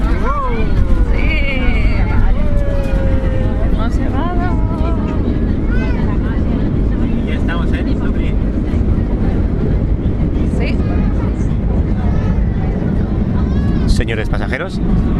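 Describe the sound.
Airplane cabin noise during a landing approach: a loud, steady low rumble runs through the whole clip, with people talking over it.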